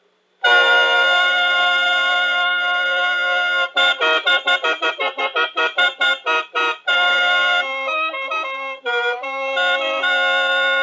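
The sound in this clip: A khaen, a Lao bamboo mouth organ with fourteen bamboo pipes and internal reeds, sounds bright, reedy sustained chords. A long held chord gives way to rapid rhythmic pulsing, then more sustained chords with shifting notes, played alone.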